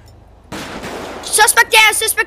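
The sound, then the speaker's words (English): A single sniper rifle shot fires in a tactical police shooter video game: one sudden, sharp crack with a noisy tail, followed by a voice speaking loudly. “Suspect down! I sniped him.”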